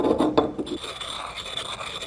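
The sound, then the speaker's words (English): Paint pigment taken from a wall is crushed and ground in a mortar and pestle, with gritty, grinding scrapes at first, then a softer, fainter rasping that continues to the end. “And so we take color off the wall, add it to the mortar and pestle, crush it and work it,”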